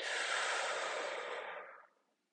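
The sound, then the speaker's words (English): A deep breath is drawn in during a guided meditation: a soft, airy rush of air holds steady for nearly two seconds, then fades into silence. “Deep inhale.”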